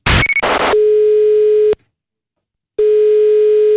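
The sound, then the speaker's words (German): Telephone ringback tone on an outgoing call to a municipal office. Two steady, mid-pitched one-second tones are separated by a silent gap and preceded by brief bursts of noisy clicking. “darum habe ich heute Morgen mal schnell auf Gemeindeverwaltung angerufen.”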